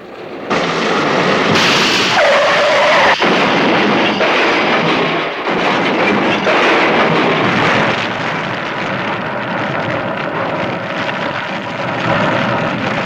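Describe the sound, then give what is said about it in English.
A tire bursts and a car crashes in a loud, dense burst of noise. A heavy roaring rumble follows and holds steady for many seconds, with one sharp crack early on and no voices. “A tire burst and crash, gentlemen.”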